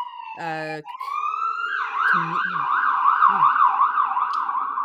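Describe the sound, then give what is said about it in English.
An emergency vehicle siren wails outside, its loud tone swinging up and down repeatedly after a brief steady note at the start, with a voice briefly heard beneath it. “Siren out there. Big siren.”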